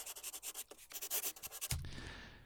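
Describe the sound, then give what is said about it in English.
A pen or pencil writes on paper in quick, rhythmic scratching strokes, very faint, ending in a low steady hum. “I'm just writing something down.”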